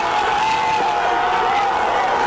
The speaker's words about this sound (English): The first big cheers of the World Cup echoing across Southern California Thursday.